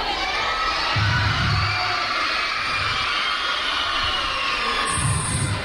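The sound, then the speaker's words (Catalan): Crowd shouting and cheering at a town festival, with groups of people yelling together: a loud, steady roar of many voices that fills the whole clip without a break. “A veure, jo ara vull sentir a tots els casals. Els cridaré un per un. A veure qui crida més. Qui té més ganes de festa major?”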